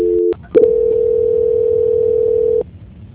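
A telephone line tone plays while a call is transferred. A short tone is followed by a brief break with a few clicks, then one long, steady mid-pitched tone holds for about two seconds and cuts off.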